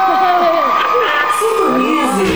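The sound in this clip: Crowd cheering with whoops and excited shouts, a dense, continuous wall of voices throughout the short clip.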